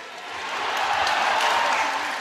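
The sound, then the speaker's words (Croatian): Loud, thunderous applause and crowd noise greet young people from the Vatican at a religious gathering, a dense, steady clatter of clapping that swells slightly and holds without pause. “A kao pretposljednji 58. u nizu bili su mladi iz Vatikana, koji su dočekani gromoglasnim pljeskom.”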